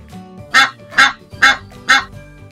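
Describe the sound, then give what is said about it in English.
A goose honks four times alone, each honk loud, nasal and evenly spaced, with short quiet gaps between them. “Goose.”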